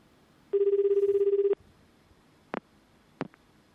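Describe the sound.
A warbling telephone ringback tone on an outgoing call sounds once for about a second, followed by two short clicks on the line.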